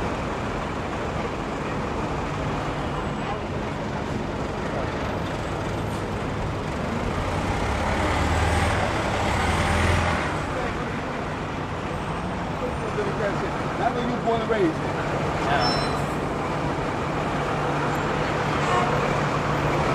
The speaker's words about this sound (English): Sounds from the street in Philly.